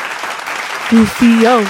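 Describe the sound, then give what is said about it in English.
An audience applauds and cheers as a guest is introduced on a talk show, with dense clapping throughout and a few whooping voices rising above it toward the end. “everybody make some noise for the very talented Sierra Sellers.”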